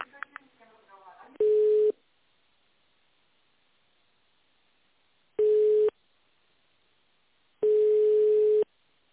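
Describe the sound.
Telephone line tones as an office call is transferred: three steady mid-pitched beeps separated by silence, the third longer than the first two, after a brief voice at the start.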